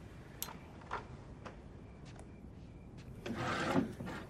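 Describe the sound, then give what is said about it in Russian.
A drawer is opened and paper is rummaged through: a few faint, soft clicks and knocks, then a brief, louder rustle of shuffled paper. Very quiet overall. “Открывает ящик, перебирает бумагу.”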